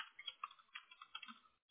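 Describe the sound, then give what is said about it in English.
Keys clicking on a computer keyboard as someone types an email address: a quiet, rapid run of many light, irregular taps, with a short pause near the end before one last stroke. No voices. “That's kind of hard to type at first.”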